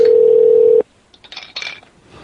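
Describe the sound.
A telephone tone heard while calling a motel in Baltimore, Maryland: one loud, steady beep holds for under a second and then cuts off abruptly. Faint, scattered rustling follows.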